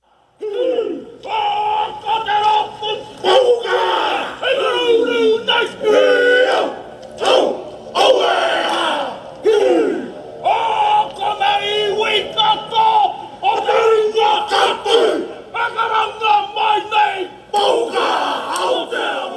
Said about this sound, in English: That was the sound of the haka tribute performed by a biker gang in New Zealand.